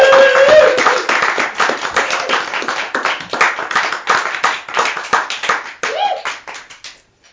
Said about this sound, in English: let's keep the round of applause going for Tiana Russell.